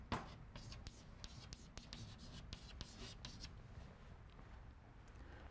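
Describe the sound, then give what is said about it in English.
Faint scratchy strokes of writing on a board during a physics lecture, a quick series of short marks at steady low volume with no clear pauses. “Let me write the absolute value of I for you.”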